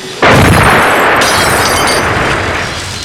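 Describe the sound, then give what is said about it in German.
A bomb explodes on a Mustang car: a sudden loud blast bursts in and settles into a dense, roaring rumble that slowly fades over the next few seconds. “Er hat eine Bombe auf den Mustang geworfen! Mensch, der zerstört unser Beweismaterial!”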